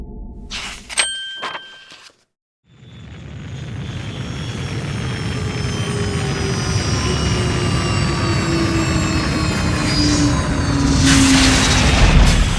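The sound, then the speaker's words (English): A rocket launches and zooms into the sky. A few bright chime-like dings open, then there is a short silent gap. After that a broad rushing roar starts and swells gradually louder to the end. “The rocket zooms into the sky.”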